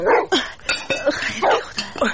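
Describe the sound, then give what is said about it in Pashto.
A dog barks near a tent at a camp on a mountain foothill, giving a rapid run of many sharp, bright barks and yips. “دا د تنګ کېږدۍ سپی چا ته غږېږي؟”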